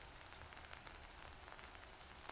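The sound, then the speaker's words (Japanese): Rain falls as a faint, steady hiss, with scattered small drops ticking through it and no voices. “ここで待ってても雨止まないと思うよ。”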